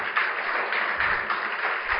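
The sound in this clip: Audience clapping at a talk about low-cost vaccine development, a steady, fairly quiet wash of many hands lasting about two seconds.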